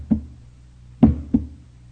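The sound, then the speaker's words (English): Clangs on a door: three dull, low-pitched knocks, one alone and then, after a pause, two close together, each with a short decaying ring. “He hears a clang on the door.”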